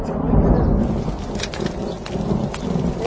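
Rain and thunder, a loud, dense, steady patter of rainfall over a deep, continuous low rumble of thunder.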